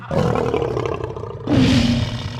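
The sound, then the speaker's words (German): Lions roar in two long, deep, rumbling bursts, one after the other, with the second roar louder and rougher than the first. “Löwen?”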